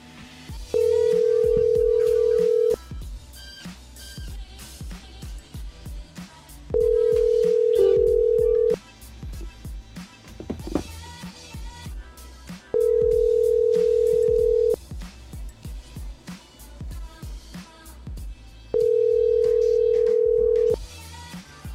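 A telephone rings out unanswered as a ringback tone: four long, steady tones of about two seconds each, spaced by gaps of roughly four seconds, with quieter background sounds filling the pauses.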